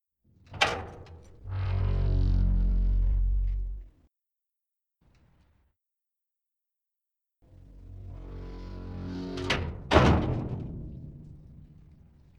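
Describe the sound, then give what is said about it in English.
A heavy iron door with a working combination lock being opened: a thunk, then a long low grinding scrape, a pause, and another long rumbling drag that ends in a loud clunk. “I will open the door and your chaperone will hold it. That is, in fact, a working combination lock, and it is exactly as heavy as you would expect iron to be.”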